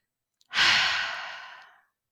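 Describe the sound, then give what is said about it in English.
A person takes one deep breath: a single long, airy rush of breath that is strongest at the start and tapers away over about a second, with no talking. “Take a deep breath.”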